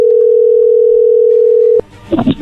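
A telephone dial tone hums as a number is about to be dialed: a steady, unbroken tone that cuts off abruptly near the end, followed by a short burst of mixed, irregular noise.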